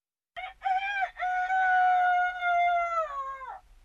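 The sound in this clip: A rooster gives a single loud, clear crow. The call breaks briefly near its start, then holds a long, strong harmonic note before trailing off, with no other sounds around it.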